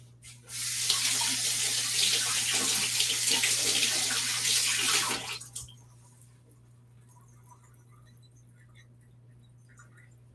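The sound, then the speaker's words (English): Water from a running tap pours over hands as they are rinsed of sticky rice, a loud steady hiss lasting about five seconds before it stops abruptly, leaving only a faint steady hum. “Okay, so I'm gonna rinse my hands off.”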